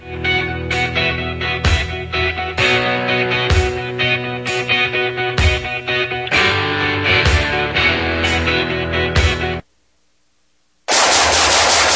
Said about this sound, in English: Nice shooting.